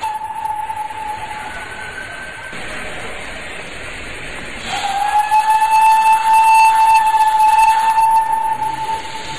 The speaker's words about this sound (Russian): Вот паровоз пустил пар, и поезд тронулся.